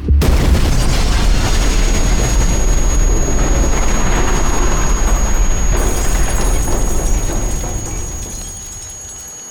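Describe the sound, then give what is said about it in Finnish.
Bomb explosion inside the Myyrmanni shopping centre: a loud, sustained roaring blast fills the whole stretch, with a thin, steady high whine running through it, before the roar slowly fades toward the end. “Det hörs en kraftig smäll en boll av starkt ljus syns en bit ovanför marken. Tryckvågen får folk att falla omkull och fönster att splittras.”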